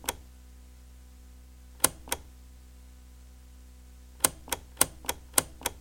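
Sharp mechanical clicks from the buttons of a tape machine that is not working, pressed alone: a lone click, then a pair, then a quick irregular run of five, each crisp and short over a faint steady hum.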